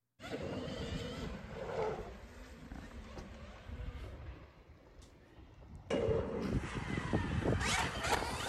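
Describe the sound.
Race car lapping a track, its tires gripping the surface under a continuous broad roar. The noise eases and softens midway, then surges abruptly louder again toward the end.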